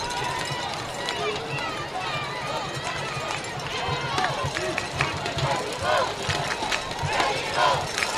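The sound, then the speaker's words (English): Baseball fans in the stands chanting for Mexico during a game, a loud, rhythmic crowd roar that runs steadily under a man's commentary. “Now I hear the fans trying to encourage their team on here, chanting Mexico in the background”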